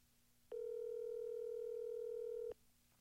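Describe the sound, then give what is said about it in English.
A steady electronic telephone tone sounds as a call goes through to voicemail: one continuous, even tone of about two seconds with no talking, set against a faint line hum before and after. “Is he putting me to voicemail?”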